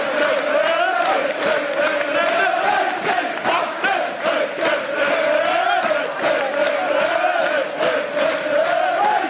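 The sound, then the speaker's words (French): Fulham football supporters chant insults at Luis Suárez in a loud, massed, sung chant, set to the tune of a song Liverpool fans had dedicated to him. The sustained unison melody carries a steady rhythmic pulse that holds throughout. “Suarez a adressé un doigt d'honneur au public de Fulham, suspendu un match, et il faut dire que le public n'avait pas arrêté de l'insulter en chantant ça.”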